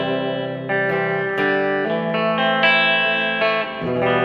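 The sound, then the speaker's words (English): Electric guitar played through a pedal set to dynamic reverb: several distorted chords struck in turn, each ringing out into a thick, shimmering wash before the next. “Let's see if we can change some effect on it here. Let's change the reverb. There it is. That's weird. You got dynamic reverb.”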